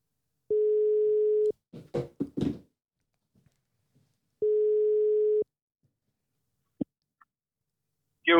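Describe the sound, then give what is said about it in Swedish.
A telephone ringback tone sounds while someone calls a man at work. It plays twice as a steady, mid-pitched one-second beep separated by a long gap. Soft clicks and rustles fall between the tones, and a brief blip comes near the end. “det är väl lika bra att vi slår honom en, slår honom en pling så får han berätta själv. vi får väl se om han svarar.”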